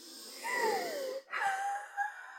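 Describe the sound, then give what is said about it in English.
A deep breath drawn in and then let out, with a wheezy, whistling tone in two long phases separated by a brief pause, and no talk. “Deep breath.”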